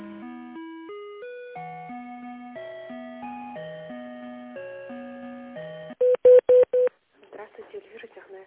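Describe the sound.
A telephone call being transferred: a simple electronic melody of stepped tones plays for several seconds, then four short dial-pad beeps sound in quick succession, followed by faint line noise.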